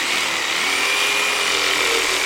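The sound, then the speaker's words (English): A power drill whirs continuously and evenly as antlers from a mule deer are attached to a lightweight hard foam deer form. “Next, he cuts the mule deer's antlers from its skull and attaches them onto the deer form using a drill.”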